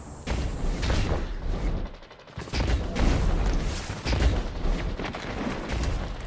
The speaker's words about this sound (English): My god, that Aikilos SMG just shredded through me.